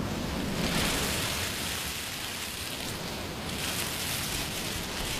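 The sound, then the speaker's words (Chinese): Ocean-like sound from a conch shell held to the ear: a soft, hollow, continuous wash of noise that swells slightly early on, then holds steady and faint. “把海螺放在耳边，就能听到大海的声音。你听，”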